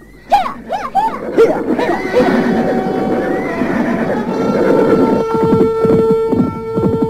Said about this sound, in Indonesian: Keduanya kemudian memacu kudanya menelusuri jalan setapak.